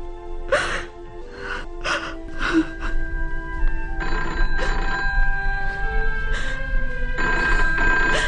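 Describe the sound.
A telephone ringing in repeated bright bell bursts, short and spaced at first, then longer, more sustained rings later on, loud and without talk.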